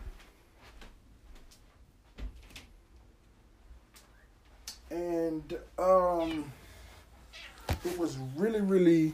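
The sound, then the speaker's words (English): A cat meows in a room, giving a few drawn-out, wavering meows that grow louder toward the end, with soft knocks and clicks in the quieter stretches between them. “If y'all hear something, man, it's a cat in the room with me. Just know it's a cat in the room with me, so don't think it's something weird or your phone acting crazy.”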